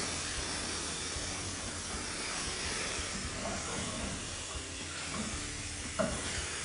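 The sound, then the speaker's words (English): Fish sizzling in a non-stick frying pan, a steady bright hiss of frying that holds at an even level throughout, with one brief sharper knock near the end. “Give them a quick turn and cook them on the other side. This pan is doing so well at non-sticking, I'm having a hard time getting it flipped.”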